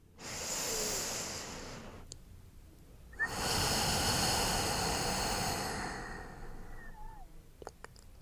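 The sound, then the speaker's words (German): Slow, deep breaths during a guided meditation: long, soft, airy hisses that build and fade, separated by short pauses, with no voices. “Dann nimm noch mal drei tiefe Atemzüge.”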